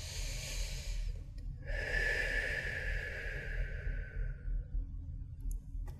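A deep breath taken during a guided prayer: a long, airy hiss that swells and then slowly fades over a few seconds. A shorter breathy sound comes before it, with a steady low hum underneath and no talk.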